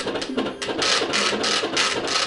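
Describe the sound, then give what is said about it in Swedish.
A modern braille printer embosses text, making loud, dense mechanical rattling that comes in rapid repeated bursts with a rough, buzzing texture. “Det ni hörde nu, det var ljudet av en modern punktutskrift.”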